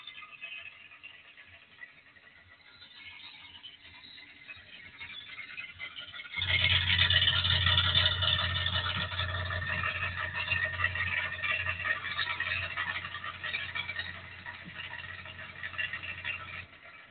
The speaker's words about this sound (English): So much of an absolute monster. This thing's consistent at like a 1275 idle.